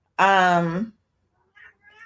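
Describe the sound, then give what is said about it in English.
A cat meows behind a closed door, one loud, drawn-out harmonic meow whose pitch drops at the end, followed by silence and a couple of faint brief sounds. “And if you guys hear some noise in the background, my cat is so embarrassing.”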